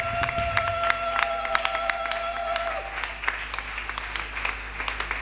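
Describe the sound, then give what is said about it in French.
Applause and cheering from a church audience during worship: steady clapping mixed with scattered voices and sharp tonal accents, moderately faint, with a sustained tone fading out about halfway through. “Est-ce que nous pouvons bien acclamer pour notre Dieu?”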